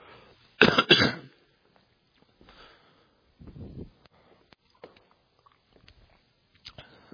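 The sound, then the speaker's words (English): Man clearing his throat: one loud, rough, gravelly burst near the start, followed by quieter throat noises and sniffs separated by pauses. “Just had a little something in my throat. Excuse me.”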